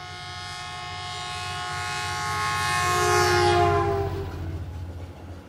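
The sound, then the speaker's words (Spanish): A train passes while sounding its horn, a sustained chord of steady tones over a rolling rail rumble that swells to a peak and then fades away, with no voices. “tren, tren, tren, sale despacito del andén.”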